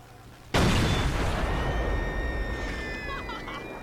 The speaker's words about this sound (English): That's a hand grenade. She threw a hand grenade at them.